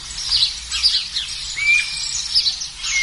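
Repeated high chirping calls of a guira cuckoo in winter, a few bright bursts with a short whistled note, heard alone without talk.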